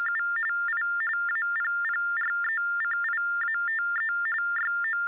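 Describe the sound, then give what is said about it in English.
An electronic phone tone: a rapid, steady run of short beeps alternating between two close pitches, fairly faint, with no voices. “is that your phone? Okay, let's check that out. Let's see what that is.”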